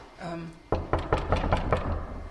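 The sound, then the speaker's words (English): Knuckles rap on an office door in a corridor in a quick, even series of sharp knocks, loud and clear, after a brief voice at the start. “I'm going to knock on the door and just see if there's anyone here today.”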